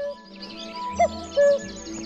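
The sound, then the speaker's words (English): A male cuckoo calls over a fen, giving its clear two-note song, the second note lower and longer than the first, ringing out loud above a quiet background. “The larger cuckoo flies into view. Cuckoo. It lands on a spindly branch.”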